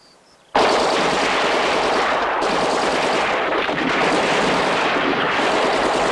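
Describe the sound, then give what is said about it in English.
Machine guns and rifles open fire on a cornfield from behind a stone wall. After a brief quiet moment, a sudden, loud, dense rattle of gunfire bursts out and keeps going without a break to the end. “The gunfire mows them down.”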